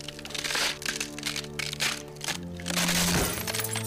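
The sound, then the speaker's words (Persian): A magic clay jar cracks in a laboratory, with a run of crackling, crunching and splintering bursts that grows denser and louder toward the end, set over steady tonal music. “توی آزمایشگاه کوزه جادویی داره ترک میخوره.”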